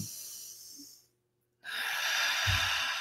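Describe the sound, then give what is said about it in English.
A deep breath drawn in: a soft breathy rush, then a brief silence, followed by a longer, fuller airy inhale that runs to the end. “if we take a minute and we're conscious of the breath and we pull it in,”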